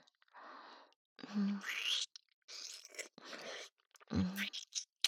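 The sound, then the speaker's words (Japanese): Soft, wet kissing from a man's lips, with several brief smacks separated by breathy, whispery exhalations. “唇、柔らかいだろう。よく褒められるんだ。しっかり味わってくれ。”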